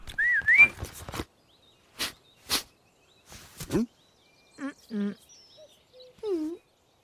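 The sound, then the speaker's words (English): Brief whistling attributed to a cat in a storybook scene: a short rising whistled tone at the start, followed by a few sharp clicks and some voiced, tonal sounds. “the witch puts down her wand and tries to whistle. She shrugs, so the cat whistles.”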